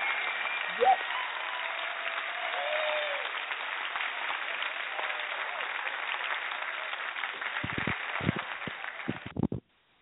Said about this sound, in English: They start clapping beforehand.